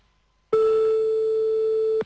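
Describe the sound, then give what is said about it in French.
The ringing tone of an outgoing call to a mobile phone: one steady, pure, mid-pitched beep about one and a half seconds long, starting and stopping abruptly after silence. “on refait sonner de nouveau le portable de Sandy”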